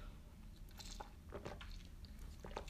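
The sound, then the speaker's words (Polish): A sip of yerba mate: a few faint, soft slurping and gurgling bursts, irregular and quiet, with no speech. “Łyczek, yerba mate i już lecę dalej”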